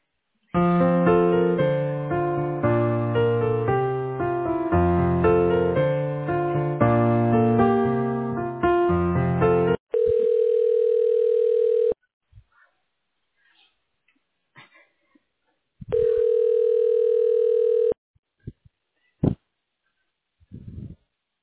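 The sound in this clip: Telephone line ringing while a call is transferred: melodic hold music first, then two steady ring tones about two seconds long with silence between them, followed by a few faint clicks.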